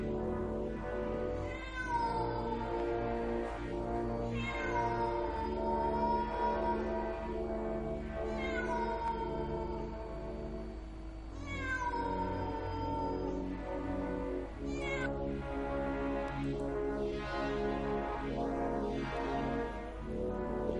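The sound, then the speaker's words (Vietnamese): A cat meows again and again in long, wailing cries whose pitch rises and falls, heard over a steady low droning tone that lasts the whole clip. “Những con chó ở xung quanh nhà thì bắt đầu rú lên từng tiếng ghê rợn. Rồi có tiếng một con mèo kêu lên.”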